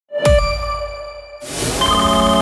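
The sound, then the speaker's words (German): A telephone ringtone for a call from an unknown number: a struck, chime-like ding with long ringing overtones, then a brighter, busier burst of layered tones partway through. “Wenn eine unbekannte Nummer anruft, geht keiner gern ans Telefon.”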